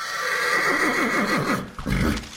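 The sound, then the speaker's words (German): A horse pulling a carriage for guests in the Jura gives one long, loud, quavering neigh whose pitch wavers rapidly up and down, heard alone with no voices. “statt mit dem Auto ist es für die Gäste plötzlich mit Ross und Wagen weitergegangen.”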